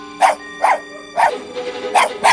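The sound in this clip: A dog barks about five times in short, sharp bursts, spaced unevenly, over a steady droning tonal background.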